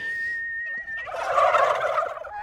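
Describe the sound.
Well-fed farm turkeys that strut and chase bugs give a single loud, rattling burst of gobbling in the second half, after a quieter start.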